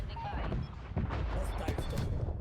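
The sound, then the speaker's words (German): Gunfire, explosions and killstreak effects from a loud first-person shooter video game form a dense, constant roar of shots and blasts, with voices mixed in. “Dass die Sounds sind ja übelst laut. Waffen und Killstreak-Sounds.”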